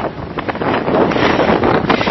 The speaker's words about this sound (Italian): Qua c'è moltissimo vento.